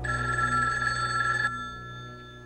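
A telephone bell rings in a loud, continuous metallic jangle that cuts off after about one and a half seconds, leaving a fading hum.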